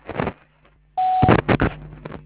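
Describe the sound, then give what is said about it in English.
A phone answering machine gives a single short, steady mid-pitched beep, set between louder bursts of other noise before and after it. “Please leave a message at the beep, and I'll get back to you as soon as I can.”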